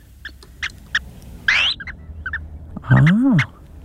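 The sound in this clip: Calls of a bird that is not large, played from a recording: several short, bright chirps, a rising whistle, then a longer harmonic call that rises and falls.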